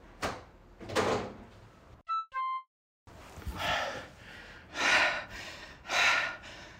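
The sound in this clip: A window being opened to let a trapped bee out of a room: several broad rushing, sliding bursts of noise, broken by a brief run of bright electronic beeping tones and a moment of silence.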